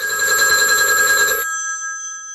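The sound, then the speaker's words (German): An electric telephone bell rings loudly and continuously with a bright metallic tone for a phone call, then cuts off and leaves a faint lingering hum. “Der französische Unterstaatssekretär Charles de Gaulle ruft von London aus Premierminister Paul Reynaud in Bordeaux an und liest ihm am Telefon den Text vor.”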